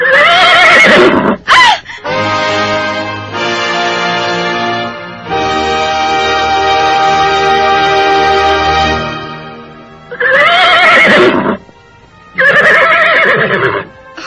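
A horse neighs loudly after a stone is thrown at it: harsh, strongly harmonic whinnies, with short sharp cries at the start, a long drawn-out quavering call in the middle, then two more loud bursts near the end.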